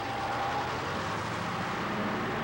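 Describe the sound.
Steady, faint rumble of a car being driven, an even drone of engine and road noise that holds without change throughout, with no voices.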